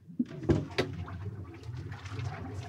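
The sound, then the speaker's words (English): Air bubbling through sewage, pumped in at 60 litres a minute to aerate it. A faint, steady watery gurgle with a few sharper pops near the start. “The bubbing noise you can hear below is air being pumped in 60 litres a minute, 24/7, to aerate the sewage.”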